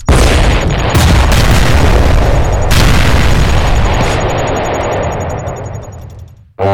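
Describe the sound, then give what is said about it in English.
Explosion sound effect of Earth being destroyed in a comedy sketch: a loud, sustained roaring blast that gradually thins and fades, cuts off abruptly, then a fresh burst hits right at the end. “So you've destroyed Earth in a sketch.”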